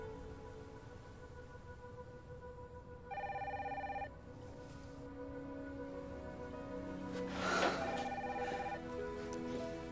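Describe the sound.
A telephone rings faintly with a electronic tone in a dramatized scene. Two short ringing bursts come a few seconds apart over a steady, low background hum.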